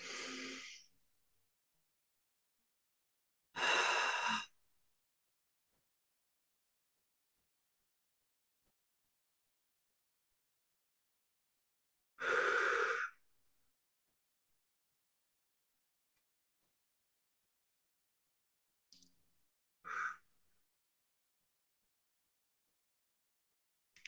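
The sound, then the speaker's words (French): Deep breaths are drawn and released slowly, loud airy bursts separated by long silent pauses, with shorter, fainter breaths near the end. “On prend trois grandes respirations.”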